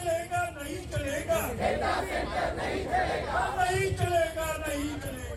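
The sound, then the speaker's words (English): Crowd of protesters in India, many voices shouting and chanting together in a loud, continuous, dense roar with rising and falling cries throughout. “And we are seeing protests, aren't we, Will, across the world. I've just come back from India and you hear lots of sounds like this.”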